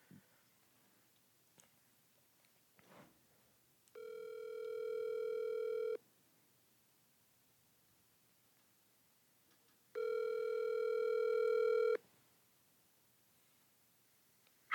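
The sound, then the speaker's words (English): Ringback tone of an outgoing telephone call: two steady, evenly pitched tones of about two seconds each, separated by a long silent gap, with a few faint clicks before the first tone. “Okay, that sounds like a plan. Giving her a call right now.”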